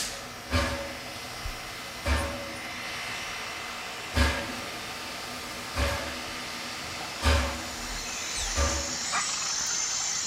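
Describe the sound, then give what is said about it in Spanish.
Steam train coming to a stop in the middle of the jungle. Six heavy, widely spaced chuffs thud at a slow, even pace over a low background rumble, and a high steam hiss rises near the end. “Phileas Fogg y el brigadier descubren que el tren se ha detenido en mitad de la selva”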